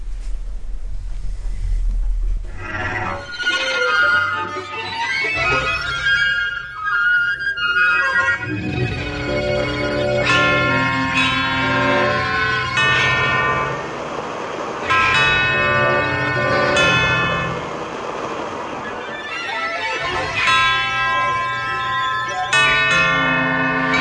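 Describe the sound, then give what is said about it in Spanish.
Bells ring through an open window at night, a dense layer of overlapping, sustained metallic tones that stays loud and steady for the whole stretch, with no talk. “En su prólogo escucharemos, a través de una ventana abierta, unas campanas, de repente los grillos, los perros en la noche y unas extrañas aves.”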